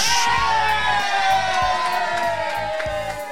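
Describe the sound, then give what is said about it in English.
A live studio audience gathered for a birthday chatters in a constant murmur of mixed voices, with occasional whoops and shouts rising above the din. “And we've got a live studio audience, so you hear the talking in the background.”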